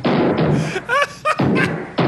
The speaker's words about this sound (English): To demonstrate Chevy's double wall toughness, we're going to hurl a 16-pound steel shot into the bed of a Fleetside pickup.